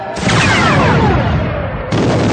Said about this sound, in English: then targeted the bunker and let fly with a missile.